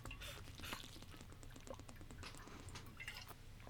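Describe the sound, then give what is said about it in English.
Someone drinks from an aluminum canteen, making faint gulping, sloshing liquid sounds with small bubbling gurgles as air enters the bottle. “It's aluminum, I think. I'm not very familiar with the various metals. When you drink out of it, it sounds like this.”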